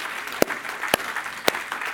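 Three sharp hand claps at an even pace during a church praise service, each a crisp slap standing out over a faint steady background.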